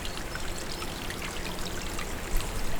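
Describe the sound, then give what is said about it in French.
A small trickle of water runs gently down a moss-covered wall, making a steady, even, hissing flow with soft droplet splashes and no pauses. “Et où s'écoule délicatement un petit filet d'eau.”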